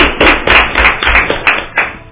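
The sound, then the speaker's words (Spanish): An audience claps for a crew member at a student production in unison, making a steady, rhythmic series of muffled claps that repeats at an even pace. “Un gran aplauso para el gran Jorge.”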